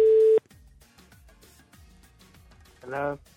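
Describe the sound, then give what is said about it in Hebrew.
A telephone line tone as a radio host dials a prize-winning listener: a steady electronic tone sounds briefly at the start, then quieter low sounds follow before a short, louder burst near the end. “ומיד מחייג לזוכה.”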